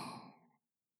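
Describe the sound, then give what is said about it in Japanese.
A single slow, deep exhale during a guided breathing exercise, a soft breathy rush that fades away over about half a second into silence. “深呼吸をいたしましょう。さあ、ゆっくり。息を吸って。吐いて。”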